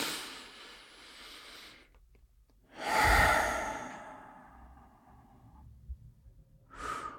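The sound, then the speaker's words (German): During a guided exercise, a deep breath is drawn in and let out as a long, audible sigh. The breathing is slow and airy, and a short further breath comes at the end. “Schließ dafür deine Augen und nimm einen tiefen Atemzug ein und aus.”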